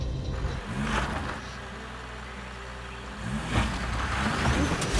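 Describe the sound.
Low, rumbling diesel engine of a vintage car on a dirt field track, chugging steadily and swelling louder twice as it revs, with no talk.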